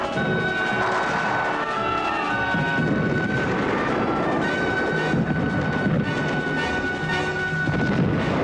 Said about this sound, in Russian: Вокруг взрываются снаряды. Небо заволокло дымом и огнем от взрывов.